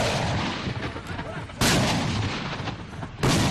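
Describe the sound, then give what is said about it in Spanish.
Gunfire and artillery fire from the civil war in South Sudan: a dense, continuous roar of shooting, broken by two sudden heavy blasts spaced evenly apart. “Es decir, una guerra como la de Siria, de importante. Este ha sido el sonido habitual desde 2013 hasta hace muy poquito en Sudán del Sur.”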